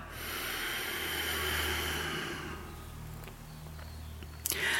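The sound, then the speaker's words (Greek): One deep breath drawn in and slowly let out, a long soft airy hiss that swells and fades over several seconds, heard alone with no talk. “πάρε μια βαθιά εισπνοή και εκπνοή”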